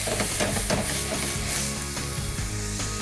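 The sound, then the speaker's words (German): Loud, continuous sizzling as white wine is splashed into a hot pan with pepper, allspice and juniper to deglaze it. The hiss holds steady for about three seconds, with some stirring sounds. “So, und jetzt habe ich hier Weißwein. So, und jetzt lösche ich immer so ein bisschen ab hier.”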